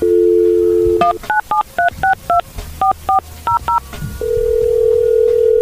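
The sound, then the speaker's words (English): A telephone number is dialed in touch tones: a steady dial tone, then ten short, crisp dual-pitch beeps in quick, slightly uneven rhythm, then another steady tone. “Now dial Vesta Godwin Clark so we can let her know that we're going to help them.”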